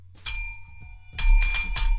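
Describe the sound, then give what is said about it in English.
A small handheld bell rings with bright metallic dings: one clear ring, then a quick burst of a few more rings after a short pause, loud and alone over a faint low rumble. “I wish I had a bigger bell. I bought both of them. Just in case.”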